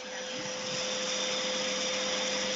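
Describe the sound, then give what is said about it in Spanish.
A hair dryer runs with a steady whoosh of airflow and a constant motor whine, swelling slightly at the start and then holding even. “Bueno, pues vamos a utilizar el secador que tienen...”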